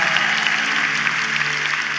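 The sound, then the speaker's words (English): A church audience applauds in dense, steady clapping that holds at an even level for the whole moment, with no pause. “Can we make some noise for people in the city today that are joining us?”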